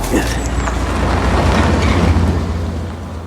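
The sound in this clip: A hunter's car drives past near trees and an embankment: a deep engine rumble swells and holds, then eases off toward the end.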